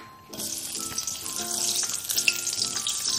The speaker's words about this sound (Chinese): 开火热锅，倒入油，油热了，倒入葱姜片爆香